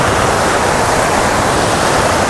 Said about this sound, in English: I've come out to a bend in the river. Oh. The waterfall is around this corner,